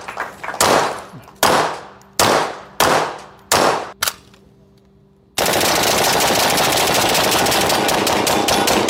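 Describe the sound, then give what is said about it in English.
Gunfire at a shooting range: six sharp, loud bursts ring out one after another, each decaying quickly, then a steady, dense roar of noise takes over. “He pointed to former Missouri governor and then Republican Senate candidate Eric Greitens posting a video of himself at a shooting range with Donald Trump Jr.”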